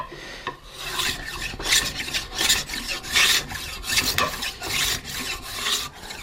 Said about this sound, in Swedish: Här ska jag dra några hyveldrag. Så, mm. För att om man har en välslipad stråkmakarhyvel så blir det ju ett vackert ljud här